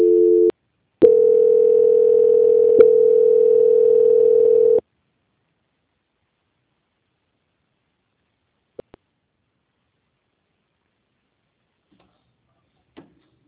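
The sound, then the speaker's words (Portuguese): A steady telephone line tone plays while a call is transferred: a brief burst, a short gap, then a long continuous hum lasting nearly four seconds. Near silence follows, broken only by a few faint clicks. “Peço que você aguarde em linha para a transferência, tá?”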